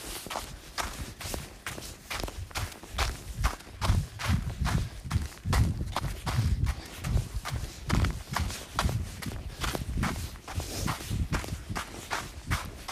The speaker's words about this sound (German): Und dann fange ich dann auch schon an zu traben.